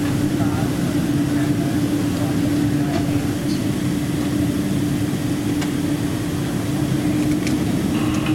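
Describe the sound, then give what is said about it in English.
An airplane preparing for takeoff fills the cabin with a steady, low engine drone that holds constant throughout, while a voice speaks over it. “Prepare for takeoff, please.”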